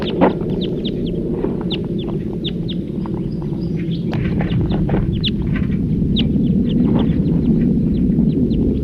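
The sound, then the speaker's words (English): A wild bird sings in song flight, pouring out many quick, bright chirps and trills throughout over a steady low background noise. “Another wild bird. In flight. Song flight. Wild birds.”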